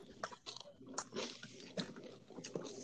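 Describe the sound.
Faint crunching and chewing of chips with cheese, many small irregular crunches and bites at a low level, with some voice in the background.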